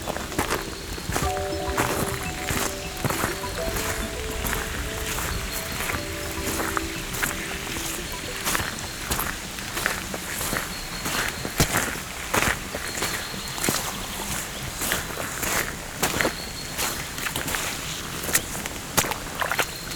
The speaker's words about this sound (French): Mais pour le moment, écoutez le chemin qui s'ouvre vers les cimes.